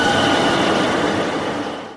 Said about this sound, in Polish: Pociąg pospieszny z lat 90. wjedzie na tor przy peronie Radia Parada.